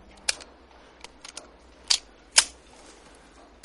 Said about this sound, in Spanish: La pistola se encasquilla. El alemán saca el cargador, lo mira y lo vuelve a meter. Dispara de nuevo.